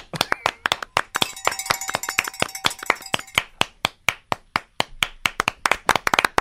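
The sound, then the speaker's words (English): Sparse clapping from four or five people in an audience: many separate claps in an uneven rhythm, with no crowd noise behind them. “Barely. Clapping. Sheesh. Four or five people in the audience.”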